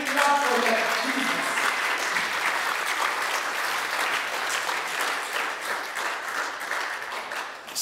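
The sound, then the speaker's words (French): An audience applauding during a French-language church service, a dense, loud, steady wash of many hands clapping that lasts the whole clip and eases slightly toward the end. “Est-ce que nous pouvons acclamer pour ce Jésus-Christ?”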